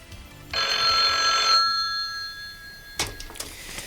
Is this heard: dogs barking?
no